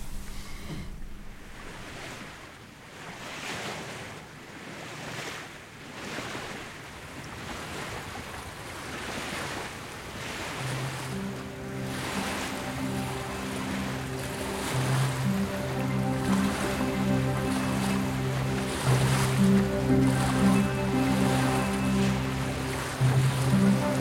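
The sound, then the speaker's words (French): Atlantic sea waves and wind heard from a lighthouse, a continuous rushing surf that swells in loudness, joined midway by sustained tonal music-like drones that grow stronger toward the end. “nous allons commencer quand même par aller dans ce phare, nous, pour écouter un petit peu la musique de la mer, la musique des cieux.”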